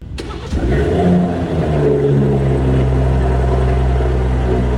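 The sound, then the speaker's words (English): A car engine starts up, the new Homage Edition model, with a sharp crank and catch, a brief swell in revs, then a loud, steady, rumbling idle. “That's the startup of a particular vehicle. Is that the old or is that the new? That is the new Homage Edition.”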